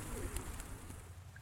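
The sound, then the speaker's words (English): A homing pigeon, one of a pair being lifted and handled, gives faint, low, murmuring coos near the start, then soft rustling noise, with no talking. “She lifted the darkest of the pair, looking for the pigeon ring upon the homingbird's leg.”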